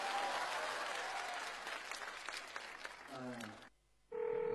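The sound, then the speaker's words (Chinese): Applause from an audience thanking two teachers at an event: dense, steady clapping for about three and a half seconds, then it cuts off abruptly and short electronic tones follow. “掌声送给两位老师”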